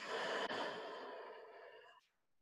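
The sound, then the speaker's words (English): A deep, slow breath out during a yoga exercise, heard as one long, airy exhale like a sigh that fades gradually and ends abruptly, with no talk. “You breathe in, empty out,”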